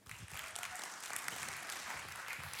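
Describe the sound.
A church audience applauds as a guest speaker is welcomed, with steady, even clapping from many hands that holds at a constant level throughout and stays fairly faint.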